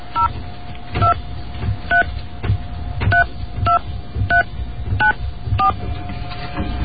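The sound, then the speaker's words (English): Touch-tone telephone dialing: many short dual-pitched beeps in quick, uneven succession over a faint steady tone and low rumble, with no talking. “you're going to hear dialing. Please don't be confused.”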